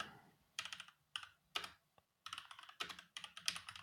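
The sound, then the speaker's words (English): Faint typing on a computer keyboard, with quick clusters of key clicks in several irregular runs separated by short pauses. “let's see if I can just type a bunch of random”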